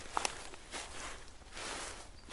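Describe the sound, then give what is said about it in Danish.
Footsteps walking through Białowieża primeval forest in Poland, soft faint treads on the forest floor with light rustling and a couple of tiny sharp ticks early on. “Jeg har taget på skovtur i Europas sidste store urskov, Białowieża-urskoven, som ligger i Polen. Og lige nu går jeg midt inde i urskoven.”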